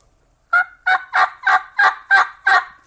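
Turkey hunting call blown after a brief silence, giving seven evenly spaced, raspy yelps in a steady rhythm, each short and fairly loud, with no speech.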